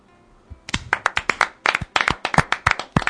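Applause from hands clapping at the close of a television program, many sharp, separate claps in a loose, uneven rhythm that starts abruptly and keeps going, with no voices.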